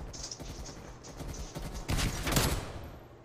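Video game gunfire, faint rapid bursts of shots with a denser, louder cluster of cracks toward the end, set against low background rumble.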